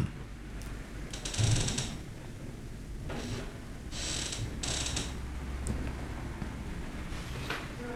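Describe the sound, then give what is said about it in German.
A swinging door creaks as it moves back and forth. Several drawn-out, scraping creaks rise above a steady, rushing background noise. “Ja, hört ihr es knarren? Das ist die Schwingtür.”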